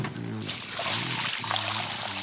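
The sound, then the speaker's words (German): Water pours from a watering can onto soil: about a second of rushing, splashing flow, set between brief tonal sounds before and after. “Und jetzt musst du die Erde wässern. Wie mache ich das denn? Nimm doch die Gießkanne da drüben. Die habe ich vorhin erst mit Wasser gefüllt.”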